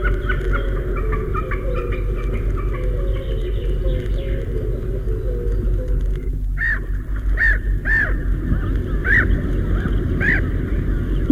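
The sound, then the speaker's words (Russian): A common snipe gives a series of short, sharp repeated calls in the second half, over a steady low rumble that runs throughout. “Это голос бекаса.”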